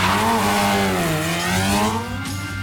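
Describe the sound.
A racing car engine during a spin-out on a race track, a loud buzzing whine whose pitch dips and then climbs again before dropping in level near the end.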